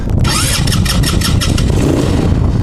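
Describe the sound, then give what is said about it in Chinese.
A loud engine is started on a vehicle for tourists before a guided ride. It begins with a rough, pulsing cranking burst, then settles into a steady, throbbing idle. “我们首先是我们给游客把车打着”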